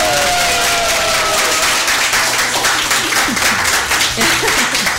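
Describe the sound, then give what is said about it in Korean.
An audience applauds at a live opening public broadcast, with dense, steady clapping and some cheering that keeps a loud, even level for the whole stretch. “박수.”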